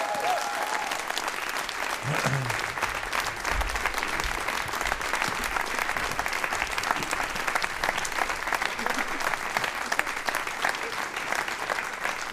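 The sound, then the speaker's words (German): Applause from an audience after a talk, a thick and constant wash of many hands clapping that stays at an even level for about twelve seconds without pausing. “Yeah, ein Applaus”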